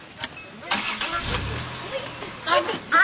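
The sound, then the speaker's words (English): A car engine starts, its low rumble rising briefly partway through amid scattered clatter, while people talk over it. “You're not funny. Start the car.”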